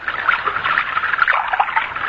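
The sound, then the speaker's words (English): Water poured for a guest makes a steady trickling, splashing stream that runs continuously at a moderate level without pause. “Then I'll pour some water for you.”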